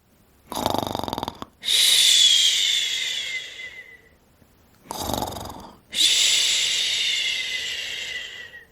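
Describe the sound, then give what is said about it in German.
A sleeping child snores twice, each time a short low rasping intake followed by a long, loud whistling hiss that slowly fades before the next breath. “Nun sieht Tami, wer hier solche Geräusche macht. Es ist Lenny. Mit der Decke bis unter die Nase schläft er noch, tief und fest.”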